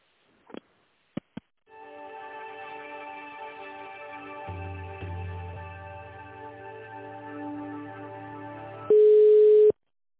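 Telephone line sounds while a call is transferred to another person: three short clicks, then a steady multi-tone hold signal with a low hum partway, ending in a brief, loud, higher beep.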